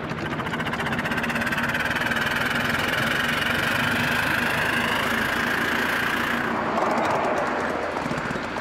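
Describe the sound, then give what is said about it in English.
A locomotive engine accelerates over railway points, giving a loud, steady, heavy engine drone with a whining harmonic tone on top. The upper tone drops away near the end while the low rumble carries on. “quite an acceleration for a locomotive.”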